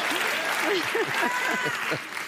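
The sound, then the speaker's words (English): An audience's applause, a continuous wash of clapping from many hands, with voices heard speaking over it. “before we forget about that applause”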